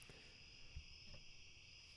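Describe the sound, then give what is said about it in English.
Cicadas and crickets chirping outdoors at night: a faint, continuous high-pitched trill that stays even and unbroken throughout, with no voices. “Listen to the cicadas and the crickets here. Great background. I love podcasting outside at night.”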